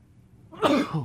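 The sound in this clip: One sneeze bursts out after a quiet moment, sudden, loud and breathy, and over in under half a second.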